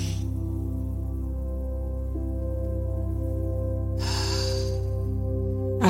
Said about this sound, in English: Take a deep breath in.